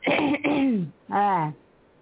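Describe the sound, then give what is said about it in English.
Someone clears their throat before reading a piece aloud: two fairly loud, rasping, voiced bursts. The first is longer and slides downward in pitch, and the second is shorter, with no other sound around them. “I have to clear my throat.”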